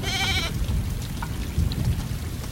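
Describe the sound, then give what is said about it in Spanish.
Heavy rain pours down in a steady, dense roaring hiss that fills the whole clip, with a short sheep bleat rising above it at the very start. “hacía tiempo que no llovía tan fuerte”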